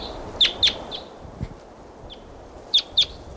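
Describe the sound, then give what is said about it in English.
A wild bird calling: high, sharp chirps in two quick pairs, with a few fainter single calls in between, over a quiet background. “And there's a wild bird here, wild, 7:30.”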